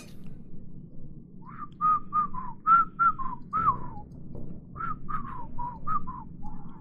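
A person whistles a lively tune of short, quick, bright notes. The tune comes in two phrases split by a brief pause, over a faint low background hum.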